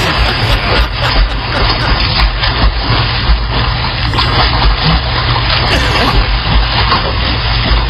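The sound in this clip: Golden retrievers swimming and splashing through water, a steady, continuous churn of splashes and sloshing that stays loud from start to finish.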